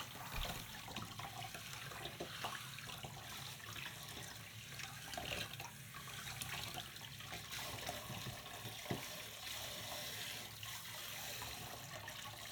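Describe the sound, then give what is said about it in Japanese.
Hot water poured to rinse foam off the forehead and ears during a wash, a continuous soft stream of running and splashing water that stays faint and steady throughout. “おでこや耳についている泡も流して、また全体にお湯をかけて”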